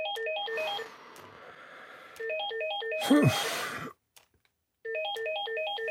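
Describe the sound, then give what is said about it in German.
An electronic telephone ringtone rings in repeated bursts of a stepped, chirping melodic pattern. A loud noisy swoop cuts in midway, followed by a short silence before the ringing resumes. “Sind Sie sicher, dass Sie nicht ans Telefon gehen wollen”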